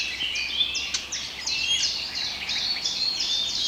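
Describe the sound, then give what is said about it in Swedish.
Eurasian blackcaps give sharp, smacking contact calls while foraging and moving through a tree. Many short, high calls repeat irregularly throughout over a steady background hiss. “Det som smackar där, det är svarthättans lockläten. De är ute och söker föda och rör sig i trädet också.”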